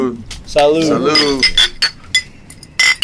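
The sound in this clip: Glasses clink together in a toast. Voices come first, then a few short, bright clinks follow, spaced apart.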